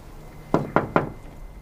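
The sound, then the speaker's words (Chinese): Three crisp knocks on a door in a steady, evenly spaced rhythm, each a short hollow rap standing out clearly against quiet background noise. “敲门，我正要找他。”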